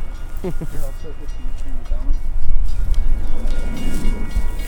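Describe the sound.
A train passing, with a loud, continuous rumble and rattle of rail cars that builds and holds steady, while people talk over it at the start.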